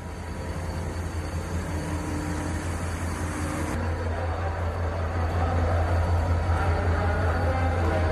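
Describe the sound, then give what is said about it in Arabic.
Station ambience at Misr railway station in Cairo: a dense, continuous rumbling wash of noise with a steady low hum running beneath it, loud and unbroken throughout, with no distinct separate events. “أيوة، هو ده الصوت المقصود. دي مش دوشة ولا حاجة، ده صوت محطة القطر، محطة مصر”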